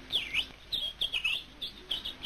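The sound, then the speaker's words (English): Migrating ducks calling in a quick series of high, chirping calls that come in short clusters and sound fairly faint. “the sound of migrating ducks reminded Master Jackson that it was duck hunting season again.”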